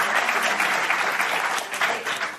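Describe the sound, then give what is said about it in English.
An audience applauds with steady, dense clapping that carries through the whole stretch and eases slightly near the end. “Why are you applauding that?”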